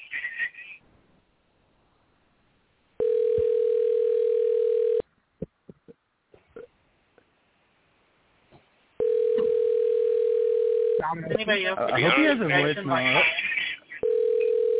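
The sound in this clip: Telephone ringback tone on an unanswered call: a steady mid-pitched tone in long bursts of about two seconds. It sounds three times with pauses between, the last one cut short, and people talk between and over the rings.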